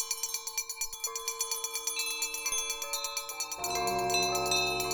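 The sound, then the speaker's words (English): Many house bells ring together in a rapid run of bright, overlapping chimes. Near the end the chimes thicken into a dense, sustained jangle, all fairly faint. “But soon it rang out loudly, and so did every bell in the house.”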